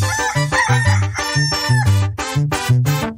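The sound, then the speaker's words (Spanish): A person imitates a rooster crowing with a strained, wavering high-pitched call over a steady rhythmic beat of low repeated notes. “Dale hermano, canta como el gallito”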